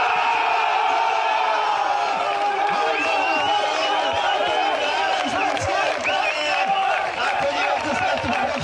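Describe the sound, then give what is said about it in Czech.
Spectators at a shootout event cheer and shout for the home goalkeeper, producing a loud, continuous crowd roar full of overlapping voices and whoops that never lets up. “A jakožto domácímu brankáři diváci často fandili mnohem víc než střelcům.”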